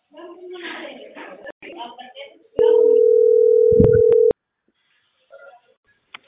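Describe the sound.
Telephone dial tone sounds while a call is placed: one steady, unbroken mid-pitched tone lasting under two seconds, with a few sharp clicks. People talk before it.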